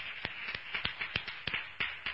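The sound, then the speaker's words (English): Scattered hand clapping in a church service in praise of God: a sparse, irregular series of sharp, separate claps rather than a full ovation. “Let's give God a round of applause for that.”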